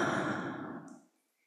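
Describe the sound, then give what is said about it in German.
A single long, deep breath taken slowly and consciously during a guided breathing exercise, a soft breathy rush that holds steady and then fades to silence after about a second. “5 bewusst einatmen und ausatmen.”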